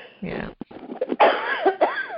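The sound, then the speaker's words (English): Harsh coughing after choking mid-conversation comes in a few uneven, bursty hacks, then a voice carries on speaking. “Excuse me. That just choked me right up.”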